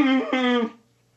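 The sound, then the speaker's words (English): A person imitates a cow's moo with a single drawn-out, low voiced tone that lasts under a second and then stops dead into silence. “You just made the cow noise.”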